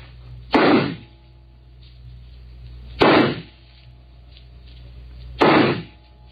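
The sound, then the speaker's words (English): Revolver shots at a shooting contest: three sharp, loud bangs evenly spaced about two and a half seconds apart, each with a short decaying tail and near-quiet between them. “You take the first three shots? Very well. I must just check that it's loaded. Yes, six bullets. All right, here I go.”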